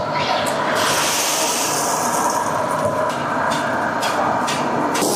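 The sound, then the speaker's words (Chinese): Rice vermicelli deep-frying in hot oil gives a dense, steady sizzling hiss broken by constant crackling, loud and unbroken throughout, with no voices. “将之前准备好的粉丝下入油锅内进行炸制”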